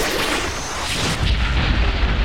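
Gunfire aimed at the listeners by a man who has already shot up the walls of a bank: a dense, steady roar of shots and booms with no clear gaps, growing slightly heavier and deeper partway through.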